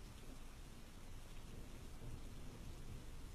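Steady rain and wind from a storm outside a workshop form an even, faint wash of hiss with no distinct events, rumbling softly underneath.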